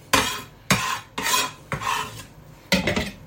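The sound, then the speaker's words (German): Onions dropped into a larger bowl while cooking: five separate clattering, scraping knocks come at uneven intervals, each a sharp hit that fades quickly. “So, machen wir das mal in eine größere Schüssel rein,”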